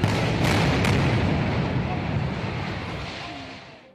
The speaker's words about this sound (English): These guns are firing now about 15, 20 miles up the road towards the Cambodian border.